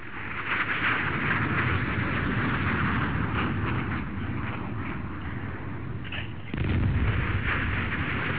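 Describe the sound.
Missile fire and explosions in a space combat video game form a dense, continuous barrage of booming rumble. It holds steady throughout, with a brief dip just before the end and no distinct separate blasts.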